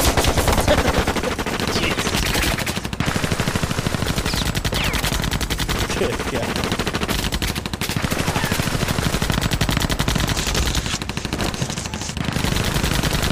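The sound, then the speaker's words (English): Rapid machine-gun fire and shooting play from a video, a dense, nearly continuous clatter of shots that lasts about thirteen seconds with only a few brief breaks. “That's so gnarly, dude. Alright, it's too much shooting.”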